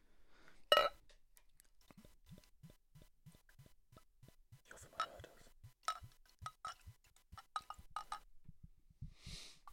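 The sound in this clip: Beer being poured into a glass, a Spanish beer ordered specially for Christmas: a single bright clink at the start, then a long, faint run of quick low glugging pulses with a few brief fizzing bursts.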